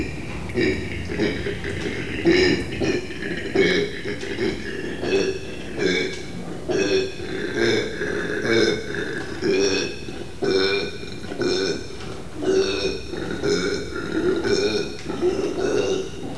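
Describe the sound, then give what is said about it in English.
Male marsupial bellowing a ferocious territorial call at a female in its enclosure: a deep, rasping, belch-like roar built from rapid rhythmic pulses, repeated loudly for the whole stretch with no other sounds. “So I was totally unprepared for the ferocious sounds that these marsupials are capable of making.”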